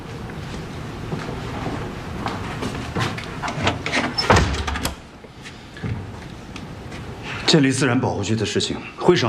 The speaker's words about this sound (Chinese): 把门关上。